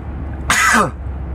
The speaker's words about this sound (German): Jetzt muss ich mal niesen hier.